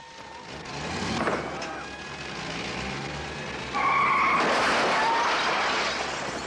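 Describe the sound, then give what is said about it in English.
An ambulance drives away, with tires squealing and engine noise. The sound builds, then swells louder and harsher in the second half. “The ambulance drives away.”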